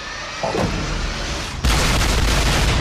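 Battleship weapons firing in a video game make a dense booming roar that runs continuously and surges suddenly louder partway through.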